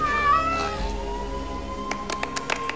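A cat held by two dust-covered men by a car gives a drawn-out meow near the start, followed later by a few sharp clicks over a low background rumble.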